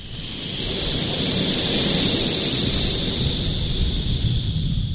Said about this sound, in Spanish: Luego vamos a hacer el viento soplando.